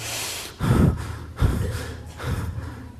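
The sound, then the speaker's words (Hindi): Long, deep breaths drawn heavily, a few breathy surges separated by short pauses, loud and without any talk. “मोहश्वास कंप, बड़ी लंबी सांस, लंबी गहरी सांस।”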